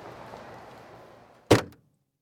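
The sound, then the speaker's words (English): A car trunk being opened for luggage: one sharp, solid thunk cuts through a steady low background noise, then the sound drops to near silence. “Let me open the trunk for you.”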